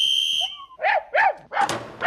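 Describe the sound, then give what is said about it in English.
Dog barking while held on a leash. A steady high whistle-like tone comes first, then a few short, high-pitched yelping barks in quick succession, moderately loud and with no talk. “Have you got a strong enough leash on that dog”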